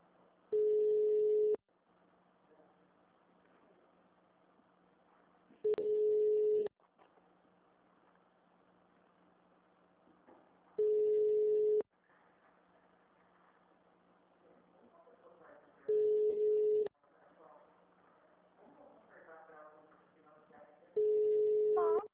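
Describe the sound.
A telephone ringback tone sounds on an unanswered call to a city hall HR department: five steady beeps, each about a second long, spaced roughly five seconds apart, with faint line noise between them.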